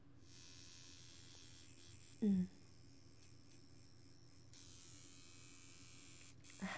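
A tattoo machine needle buzzes in a steady, low electric drone that runs through the whole clip, with a couple of brief louder thumps.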